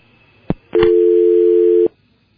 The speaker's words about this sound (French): apparemment nous l'avons perdu, la réalisation va essayer de les rappeler.